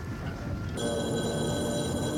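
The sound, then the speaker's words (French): A telephone rings with a bright, steady electronic tone. It starts about a third of the way in and holds unbroken to the end over a low background hum. “Le téléphone a sonné. Il prend l'appareil.”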